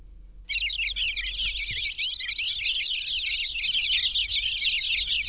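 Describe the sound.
Small birds chirping in a dense, continuous chorus of high, rapid tweets that begins after half a second and holds steady to the end, over a faint low rumble.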